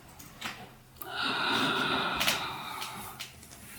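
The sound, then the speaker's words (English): A person taking one slow, deep breath during a guided relaxation, heard as a long, soft, airy inhale of about a second and a half, with quiet breathy sounds before and after it. “So we can now close our eyes. And we can take a deep breath.”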